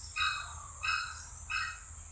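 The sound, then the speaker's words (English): An orange-footed scrub fowl gives a chook-like call, repeated a few times in short, evenly spaced, hoarse bursts of moderate loudness against a quiet background. “Can you hear that chook-like sound? You might have heard it during the night. It's the call of the orange-footed scrub fowl.”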